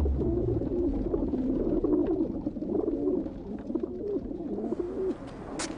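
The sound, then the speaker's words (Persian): Pigeons coo in a city spot where grain is scattered every day. Low, throaty burbling calls overlap in a dense, continuous run, fairly loud and without talk. “هر روز قدم من اینجا دونه میپاشم کپترها زیاد شدن.”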